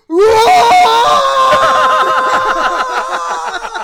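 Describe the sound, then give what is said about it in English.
A person's voice imitates a scream of excitement at a catch during a football game: one loud, high-pitched, sustained shriek lasting nearly four seconds, wavering and slightly trembling as it fades toward the end. “and I scream so much, I nearly passed the fuck out.”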